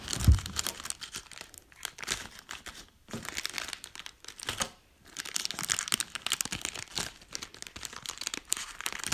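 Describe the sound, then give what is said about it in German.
Crinkling and tearing of a Trolli gummy bear packet being ripped open, many faint plastic rustles and crackles in irregular bursts separated by brief pauses. “Wir testen eine Gummibärchenpackung von Trolli. Ähm, ja. Okay, also es sind genau 10 drin. Ich reiße jetzt mal auf.”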